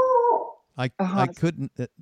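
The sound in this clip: A dog gives one short howl that slides down in pitch and fades, followed by a person talking.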